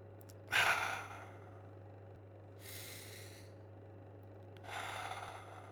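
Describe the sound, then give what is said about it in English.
Deep breathing: three slow, breathy breaths about two seconds apart, the first the loudest and the later two softer, all faint over a steady low hum. “2 deep breaths.”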